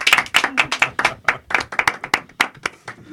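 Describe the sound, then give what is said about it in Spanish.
A few people in a radio studio clap their hands with sharp, distinct claps in a quick, slightly uneven rhythm. The clapping stays loud and continuous for about three seconds. “Un aplauso, ¿no? Para mí.”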